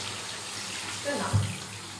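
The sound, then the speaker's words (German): A water tap turned on for hand washing, with hands being wetted beneath the stream, makes a soft, steady hiss of running water that continues throughout, with a brief low bump near the end. “Wasser anmachen. Hände nass machen.”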